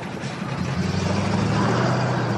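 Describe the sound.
Low, steady engine rumble of a car pulling off, holding a fairly even, slightly swelling level throughout with no voices over it.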